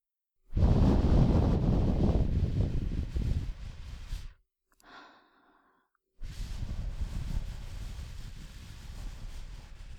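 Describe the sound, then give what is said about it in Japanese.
Breath blown hard to clear away fine debris, heard as gusty rushing air: one long blow of about four seconds, a short faint puff, then another sustained blow that runs to the end. “細かいカスを吹き飛ばすために息を吹きかけているんですけど”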